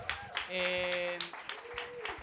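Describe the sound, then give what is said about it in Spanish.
An audience applauds at a talk, a scattered burst of clapping with a drawn-out vocal call rising above it partway through, then uneven claps continuing to the end. “Bien, aplausos también.”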